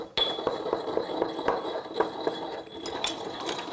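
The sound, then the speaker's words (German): Coarse unrefined salt drops into a mortar before grinding, giving a few faint, scattered clicks and light clinks of grains against the bowl over a quiet background. “ein grobes Salz. Das ist das Ungereinigte, ja. Das schmeckt am besten. Da stecken wirklich noch andere Geschmäcker drin. Und das gebe ich jetzt dann in einen Mörser, um es ein bisschen klein zu machen.”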